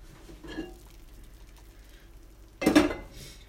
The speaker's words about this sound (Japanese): まあ大さじ1杯ぐらいのお酢をご飯にかけてしゃもじでご飯を混ぜます。